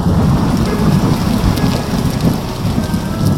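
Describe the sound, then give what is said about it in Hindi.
Heavy evening rain in Delhi pours in a dense, continuous roar, with low rumbling thunder rolling underneath and no voices. “Delhi में उस शाम भी बारिश हो रही थी”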